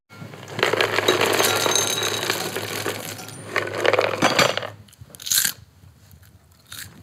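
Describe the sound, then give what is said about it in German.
Caramelized handmade popcorn is crunched in a long, loud stretch of crisp chewing. A few fainter crunches follow after a pause. “Nach rohem Mais. Nein, nein, nein, das ist schon durchkaramellisiert. Wow, das wird wirklich ein besonderes Popcorn. Crunchy scheint mir.”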